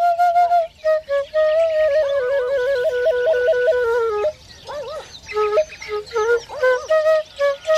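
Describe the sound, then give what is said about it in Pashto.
A shepherd's whistle played alone in a clear melody of sustained, wavering notes with quick trills and ornaments, broken by a few short pauses. “شپیلی څوک غږی؟”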